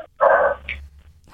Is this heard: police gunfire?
no